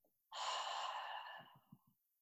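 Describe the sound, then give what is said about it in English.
A slow breath during a guided meditation breathing exercise: one long, soft, airy rush of breath lasting over a second, then fading, with a few faint low sounds after it. “In through your nose, hold at the top, exhale through your mouth.”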